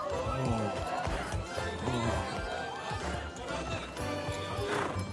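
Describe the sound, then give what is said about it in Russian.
Hooves of horses led by the bridle through city gates make a dense, continuous clopping and clatter that stays fairly even in loudness throughout. “входит в городские ворота, держа под уздцы коней”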